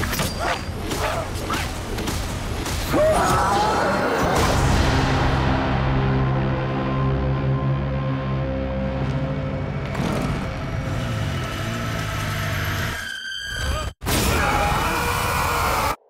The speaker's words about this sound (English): Wow. That trailer sure was noisy.